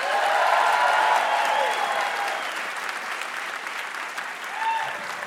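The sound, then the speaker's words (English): An audience applauds to welcome a comedian guest back to a show: dense, steady clapping that eases slightly in the middle, then swells briefly again near the end. “Thank you, audience, for applauding my welcome.”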